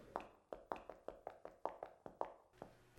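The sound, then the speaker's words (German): Knocking on a door, a quick steady series of many sharp hard raps with no voices. “Da ist es wieder. Es scheint von da hinten zu kommen. Ja, ich glaube auch, Sir. Das Klopfen wird lauter.”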